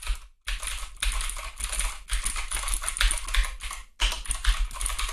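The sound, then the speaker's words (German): Typing on a mechanical keyboard with blue switches produces a dense, continuous stream of crisp, clicky keystrokes. Brief gaps fall near the start and again later in the run. “Die Tasten sind so schön, sind schön hoch und vor allen Dingen, hört mal, ich tippe jetzt mal”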